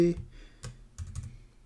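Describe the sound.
A few sparse keystrokes on a computer keyboard while HTML paragraph code is written: short, dry clicks in small irregular clusters separated by brief quiet gaps.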